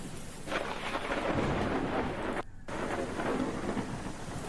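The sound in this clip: Thunder rumbles over a heavy downpour, with a dense, loud hiss of rain that runs steadily, breaks off in a brief near-silent gap, then resumes just as strong.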